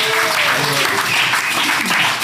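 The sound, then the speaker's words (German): Audience applause at a live event in Bottrop, a dense, steady wash of clapping that holds at an even level throughout with faint voices mixed in. “Komm, wir klatschen mal alle.”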